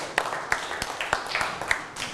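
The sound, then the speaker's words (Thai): Scattered claps from a classroom group applauding a classmate, a few sharp separate hand claps at uneven intervals rather than a steady round. “นั่งลงครับปรบมือให้กับเพื่อน”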